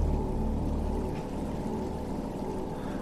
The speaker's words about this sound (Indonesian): Suara itu jadi lebih terdengar jelas. Ya, suara geretan mesin-mesin itu.